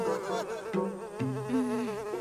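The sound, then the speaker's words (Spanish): Buzzing of a bee in an animated children's scene, a steady droning hum that wavers and shifts between tones throughout, moderately loud and alone. “¡Claro! A las abejas les gustan las flores. Si seguimos a esta, nos llevará a ellas.”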